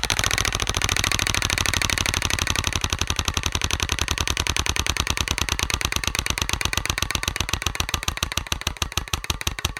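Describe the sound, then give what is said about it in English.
A prize wheel spins in a roulette-style game, its pointer clicking in a loud, rapid rattle that gradually slows until the individual clicks are spaced farther apart near the end. “Okay, spinning the wheel.”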